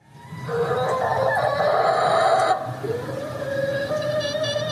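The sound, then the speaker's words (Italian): A hen in a backyard chicken coop in a residential town in canton Bern, Switzerland, gives a loud, drawn-out, harmonic squawking call lasting about two seconds, then continues with a softer, steadier call. “Era la voce di Ella, che insieme a Silverstar e Pablita abita in un pollaio, una cittadina nel canton Berna.”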